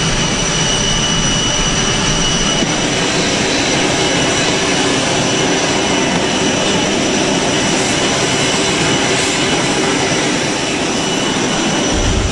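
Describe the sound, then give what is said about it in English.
Steady, loud roar of Air Force One's jet engines at an airbase in Singapore, a dense continuous rush with no breaks and no voices across the whole stretch. “From the press conference on Sentosa Island, a 20-minute motorcade to an airbase in Singapore to board his ride home, Air Force One.”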